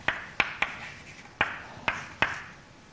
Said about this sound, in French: Donc je vais écrire ça en composante, je l'écris dans ce sens-là.